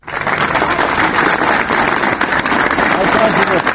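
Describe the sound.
Supporters applaud in central Belgrade while carrying boxes of petition signatures. The clapping is dense and continuous, a loud crackling wash that starts abruptly and stays steady throughout.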